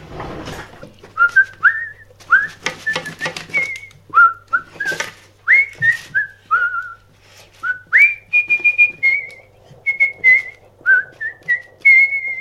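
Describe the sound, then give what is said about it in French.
Someone whistles a tune while washing the dishes: many short, bright melodic notes in a lilting rhythm, with a few bursts of clattering near the start. “Aujourd'hui, 4e épisode, on fait la vaisselle en sifflotant.”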